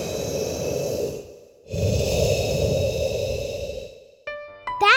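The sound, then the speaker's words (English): A person takes a deep breath: a breathy rush of air drawn in, a short pause, then a longer, steady airy exhale that fades out. A brief tonal sound follows at the very end. “That's what I do. I take a deep breath.”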